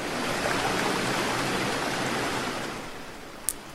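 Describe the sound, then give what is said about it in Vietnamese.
Big waves crash against rock cliffs, heard from a small boat being paddled. A dense, steady roar of churning water continues without distinct breaks and eases slightly near the end, with one brief sharp click. “Sóng rất lớn. Trắc Mộc Cường Ba ở mũi thuyền quạt nước. Không ngừng có sóng vỗ vào vách đá, bọt nước bắn tóe lên cả người.”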